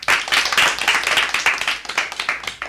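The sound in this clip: Applause from a class of children after a pupil's tongue-twister recitation, many hands clapping in a dense, steady patter that stays loud throughout.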